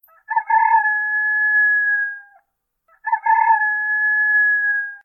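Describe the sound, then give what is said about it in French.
A rooster crows twice in a village, two long, bright calls with a harsh onset, separated by a brief pause, heard alone against silence. “Un cri de coq éclate dans le silence.”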